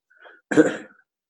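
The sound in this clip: A single sneeze: a soft, brief intake of breath, then a sharp, noisy burst that quickly fades out.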